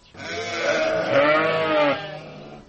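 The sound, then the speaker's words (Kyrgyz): An Edilbay breed sheep bleats in a farmyard, giving one long, drawn-out call with a wavering, nasal pitch. The call rises and swells in a couple of pulses before breaking off, and is heard alone. “Азыр короосунда Эдилбай породасындагы 300 жакын кой бар.”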